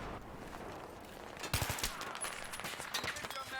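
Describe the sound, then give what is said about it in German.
Video game gunfire, quiet and sharp, with a tight cluster of rapid shots around the middle followed by scattered shots and bursts toward the end. “Okay, die schießen aus dem...”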